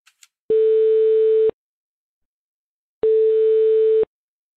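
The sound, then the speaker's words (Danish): Two steady telephone ringing tones on an outgoing international call, each about a second long at one unchanging pitch, separated by a silent gap and preceded by a couple of faint clicks. “så ringede jeg så til, øhm, til FIFA. Det lød sådan her.”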